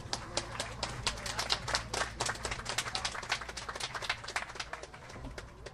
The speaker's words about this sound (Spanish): Un aplauso, por favor. Gracias.